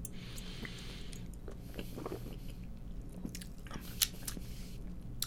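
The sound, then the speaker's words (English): Someone tastes a lime-flavored drink and swishes it around the mouth like wine: quiet, irregular sips, slurps and small wet clicks, with no speech. “Swivel that around like a you drinking wine. Let's taste that one more time before I give my review.”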